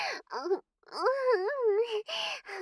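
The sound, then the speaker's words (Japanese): A woman moaning in several drawn-out, voiced sounds with wavering, sliding pitch, separated by brief breaths; the longest moan in the middle undulates up and down before trailing off into shorter ones. “私の喘ぎ声が演技に聞こえるのですか。”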